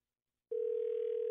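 Telephone ringing on an outgoing call: after a short silence, a steady single-pitched tone starts abruptly and holds, moderately loud, to the end with no talk over it.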